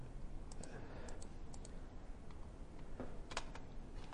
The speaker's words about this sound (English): It's very awkward to type here when this is on... Oopsie.